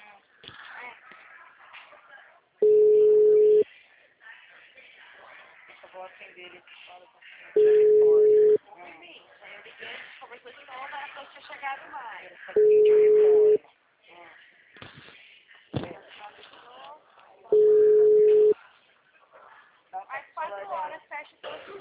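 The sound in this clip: A telephone busy signal sounds while someone repeatedly calls a person, with four steady mid-pitched tones, each about a second long and roughly five seconds apart, over continuous talking.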